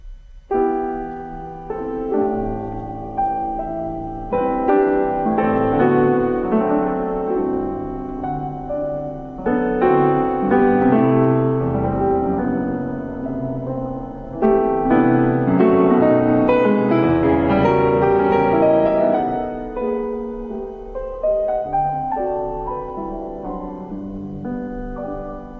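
Solo piano plays a lyrical sonata melody built on a falling-third figure, a small high answering phrase above the main line. The playing is rich and sustained, in a few swelling phrases over about twenty-five seconds.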